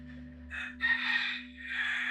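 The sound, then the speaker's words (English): Wild roosters roaming on Kauai: a rooster crows in a few drawn-out, harsh segments, fairly faint, over a steady low hum, with no talk. “I'm in Kauai now, as you can hear from the roosters. If you hear in the background, there are wild roosters running around.”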